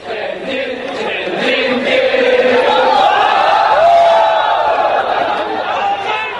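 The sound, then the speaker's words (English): Crowd noise from anti-Japan street rallies in China in 2012: a dense, loud mass of voices with raised shouting cries rising out of the steady roar throughout. “This is the sound of anti-Japan rallies which took place in China in 2012.”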